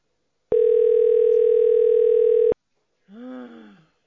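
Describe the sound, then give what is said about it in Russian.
A telephone call tone: one steady, loud, unbroken hum holds for about two seconds and then cuts off abruptly. “Ну я тебе звоню, возьми трубку-то.”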